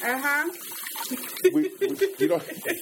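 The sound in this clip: Running tap water as dishes are washed at a kitchen counter, a steady faint hiss of flowing water beneath people talking throughout.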